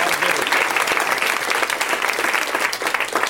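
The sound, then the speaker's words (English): An audience applauds the guests at a live show with dense, steady clapping that stays loud and even from start to finish. “Let's hear it for my guests, everybody.”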